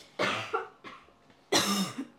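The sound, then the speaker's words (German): A person coughs a few times in short, breathy bursts separated by brief pauses, with the final cough the loudest and longest; no talking is heard. “Ich habe gerade eben ohne dich gehustet, falls es dir aufgefallen ist.”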